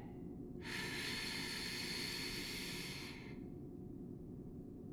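Slow exhale during a breathing exercise: one long, airy hiss of breath lasting about three seconds, laid over a steady low background rumble that continues before and after it.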